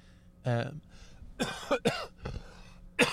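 Phlegmy coughing and throat clearing come as several short, rough bursts spaced irregularly, some with a voiced, gravelly rasp, moderately loud against a quiet background.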